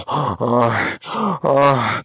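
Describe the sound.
A woman moaning in four drawn-out, voiced moans separated by brief breaths. Each is fairly loud and breathy with a strong tonal core, and no other voice or sound is present.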